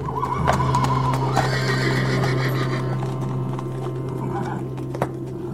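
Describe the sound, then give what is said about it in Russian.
Two horses, a white and a black warhorse, neighing: drawn-out whinnies rise and fall over a steady low hum throughout. “Вдруг учуяли кони что-то, уши навострили и заржали.”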